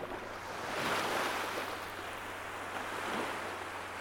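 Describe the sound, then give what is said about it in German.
Sea waves running out on a beach make a soft, steady rushing roar that swells gently twice and eases between, with no voices. “Das Rauschen des Meeres, die Wellen, die am Strand auslaufen,”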